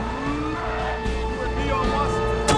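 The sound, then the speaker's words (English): Police vehicles speed through a maze of city streets, their engines making a steady, loud roar that carries on without a break. “A motorcade of police vehicles speed along a maze of streets.”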